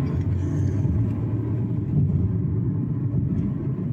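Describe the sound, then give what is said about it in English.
A car drives up a highway flyover ramp on I-95, giving a steady, low rumble of engine and road noise with no breaks. “Alice and I drove the ramp. So we're going on the flyover, and we can see down below very congested two-lane ramp.”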